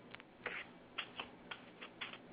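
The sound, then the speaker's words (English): Keys tapping on a keyboard as a search is typed into Google, a handful of separate crisp clicks spaced irregularly and heard alone at a fairly low level. “Go to regular Google, search window. Okay. Type in WW2.”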